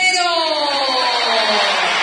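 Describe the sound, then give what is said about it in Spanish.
A stadium crowd at an Argentine football match roars as the starting players are announced, a loud, sustained wash of cheering with long, held voices that sink slightly in pitch. “Ovación para cada uno de los jugadores.”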